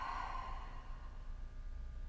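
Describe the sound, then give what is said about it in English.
A slow, soft exhale comes at the end of a yoga practice with hands held at the chest. The breathy rush is strongest at the start and tapers into near quiet, faint and alone, with no voices. “Take a breath in through your nose and let it go.”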